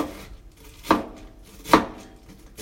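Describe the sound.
Two sharp chopping knocks of a knife through food while cooking, spaced just under a second apart over faint background noise.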